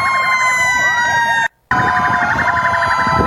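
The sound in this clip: Sirens from an ambulance, rescue vehicles and other emergency vehicles wail together at a siren-sounding gathering. Their loud, overlapping high tones loop steadily and are cut by one brief silent gap midway.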